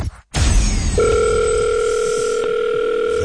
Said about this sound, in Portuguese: Mais uma semaninha em que ninguém atendeu o telefonema. Vamos recapitular então a chamada de há bocadinho?